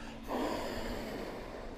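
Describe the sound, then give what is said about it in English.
A huge breath out during a yoga session: a single soft, breathy rush of air lasting about a second, fairly faint. “Huge breath out.”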